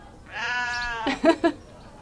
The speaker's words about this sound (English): So this one is one of our Shetland sheep. They're brand new.